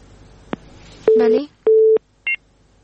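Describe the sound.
Telephone tones after a call-in caller is disconnected: a faint click, then two steady mid-pitched beeps of equal length, followed by a short higher-pitched beep, with quiet line noise between them.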